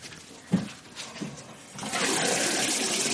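Water runs from a sink tap facing a bed. A few soft knocks come first, then a steady rushing stream starts and continues loudly to the end.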